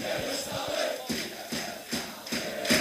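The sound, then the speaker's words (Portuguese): Vianense supporters celebrate at a football match against Rebordosa, their crowd noise rising in rhythmic chanting bursts at a steady pulse, fairly faint. “É o público, a massa associativa do Vianense, a começar a fazer a festa.”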